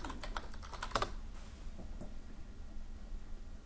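Typing on a computer keyboard to enter a music search, a quick, fairly faint burst of clicking keystrokes followed by sparser, scattered taps.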